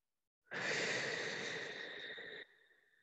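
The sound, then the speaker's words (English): A single deep breath in a guided meditation, one soft, airy breath lasting about two seconds that starts abruptly, then tails off into quiet. “One more deep breath.”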